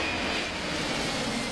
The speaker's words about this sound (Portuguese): Abaixa a cabeça aí que tá passando um avião, hein?